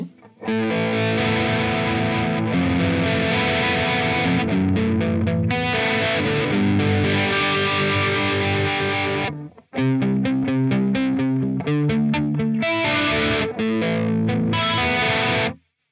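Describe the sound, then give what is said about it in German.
Distorted electric guitar through an amp with a chorus-style modulation effect, its mix turned down, playing dense, sustained chords in two loud passages separated by a short break near the middle, with no talking. “Kann man also auch so benutzen, dass es wie ein Chorus klingt, wenn man da entsprechend mit dem Mix runtergeht. Wollen wir das auch gerade nochmal am verzerrten Amp machen hier?”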